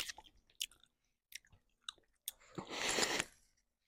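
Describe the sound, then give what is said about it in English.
Someone chews chewy Sour Patch Kids candy: a few soft, moist, crunchy bites spaced apart, then a longer, sticky burst of chewing near the end. It is quiet throughout, with no talking. “these Sour Patch Kids are chewy. Really? Oh my god. ASMR.”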